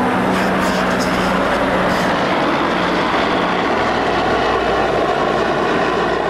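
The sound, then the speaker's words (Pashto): Steady, loud roar of military aircraft overhead: foreign forces' helicopters, a jet and a large reconnaissance plane circling above Marja. A continuous broad drone with a low hum holds for the whole stretch, with no talk. “د مرجی پر اسمان د بارنیو ځواکونو دوه چورلکې، یوه جوټ او یوه هم ډیره ستره کشفي الوتکه ګرځي.”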